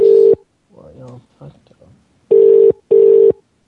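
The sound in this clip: Ringback tone of an unanswered telephone call: a steady low tone in short bursts, one burst, then a pause, then a quick pair, with a person talking briefly during the gap.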